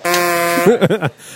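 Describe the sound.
A quiz game's wrong-answer buzzer: a loud, harsh, steady buzz holds for about half a second, then breaks into a few wobbling, sagging wah-wah tones before cutting off.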